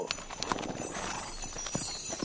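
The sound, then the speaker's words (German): Santa's horse-drawn carriage sets off, its hooves clip-clopping in a steady, muffled rhythm over a soft, continuous rumble and hiss. “Die Verwunderung ist dem Weihnachtsmann ins Gesicht geschrieben, der völlig erstaunt bemerkt, wie sich seine Kutsche in Bewegung setzt.”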